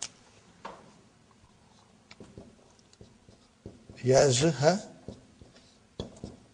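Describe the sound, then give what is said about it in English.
A teacher writes on a board during an Arabic lesson, making faint scratches and light taps, and a person speaks briefly midway. “So I'm writing it here, brothers and sisters.”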